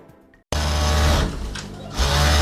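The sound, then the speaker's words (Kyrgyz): Sewing machines running in a small village sewing workshop. A loud, steady mechanical whir starts abruptly after a brief quiet moment, dips a little midway, then swells again. “ФАПтын имаратында ачылган чакан тигүү цехинде азыр 15 аял эмгектенет.”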